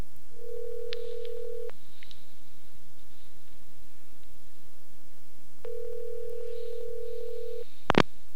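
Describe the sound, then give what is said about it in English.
Telephone ringback tone on an outgoing call, two long steady rings separated by a long pause, then a sharp click at the end, with faint line hiss throughout. “Of course, I sometimes dial the wrong number here, but hopefully we're going to be doing this properly.”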